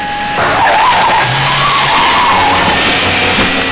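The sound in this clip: Car tire skid from the Batmobile sound effect: a loud, sustained squeal of rubber over a roaring engine, with a wavering, screeching tone lasting the whole clip.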